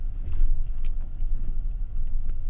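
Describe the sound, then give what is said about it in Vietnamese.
Low motor rumble of a Honda motorbike riding slowly off the main road and turning into an alley, a steady, muted engine drone with slight swells in loudness and no voices. “Vừa lúc đó, một chiếc xe Honda từ ngoài đường cái chạy chậm chậm rẽ vào con hẻm.”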